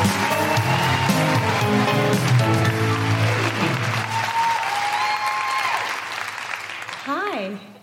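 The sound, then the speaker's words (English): An audience at a live show in Sydney applauds poet Jazz Money with loud, sustained clapping and whoops, gradually thinning out toward the end, where a brief voice breaks through. “Please put your hands together and make orgiastically revolutionary noises for the incredible Jazz Money!”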